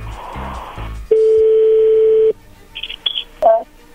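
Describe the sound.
A telephone call being placed by dial: after a brief voice, a steady mid-pitched dial tone holds for about a second, then a few short, high, faint beeps follow, ending with one brief louder tone.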